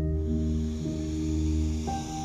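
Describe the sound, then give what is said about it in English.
A deep breath drawn in through the nose during a guided meditation: a soft, steady airy hiss lasting about two seconds over sustained tonal music. “take a deep breath in through your nose”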